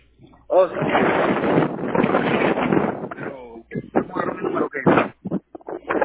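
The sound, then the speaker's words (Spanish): Strong wind buffeting a phone call, a loud rough roar lasting about three seconds before choppy speech on the line takes over in short bursts. “No escuché, una disculpa, había como mucho viento.”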